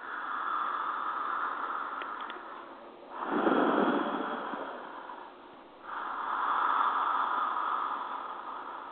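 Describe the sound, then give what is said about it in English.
Slow, deliberate mouth breathing in a conscious breathwork session, heard as a few long, airy rushes of inhaling and exhaling with short pauses between them and no talk. “I will always inhale, exhale through my mouth, and the breath sounds like...”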